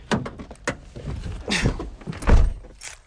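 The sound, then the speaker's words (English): A door opens in a house in the middle of a town: a series of clicks, knocks and rattles from the handle and frame, ending in a heavier, duller thud. “There, you can probably hear my door open.”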